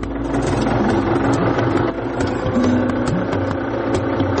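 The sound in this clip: A tractor engine runs on a farm, a steady low rumbling drone with vibration that holds a constant level throughout, with no talk over it.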